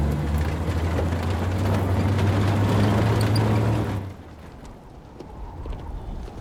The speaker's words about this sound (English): Ennis pauses as Jack drives past him, then continues down the road.